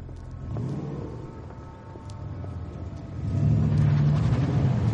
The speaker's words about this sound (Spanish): Mikkel gira con su coche y desaparece en dirección opuesta.